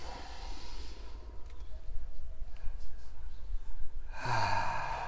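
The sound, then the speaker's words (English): A slow, deep breath drawn in during a guided pause, a soft, airy inhale lasting about three seconds. “just take a pause and take a nice deep breath in.”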